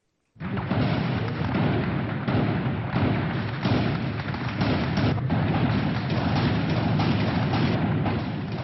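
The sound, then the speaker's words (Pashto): Loud, dense gunfire during a militant attack on government buildings in Ramadi, Anbar province. Shots and thuds form a rapid, unbroken clatter that holds steady throughout, with no voices. “دا د انبار ولایت د رمادی په ښار کې په حکومتي ودانیو د اسلامي دولت د جګړه مارانو د ډزو ژغونه دي.”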